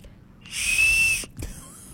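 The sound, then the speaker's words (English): A Wienermobile weenie whistle blown once, giving a breathy, high, steady tone that lasts under a second before cutting off. “I just saw my weenie whistle sitting there right before we came on air, and I went, oh, what a dream that would be to see the Wienermobile.”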